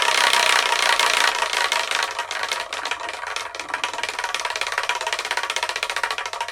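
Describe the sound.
A wheel is spun, producing a fast, continuous clatter of ratcheting ticks that runs loud through the whole clip, with no talk over it.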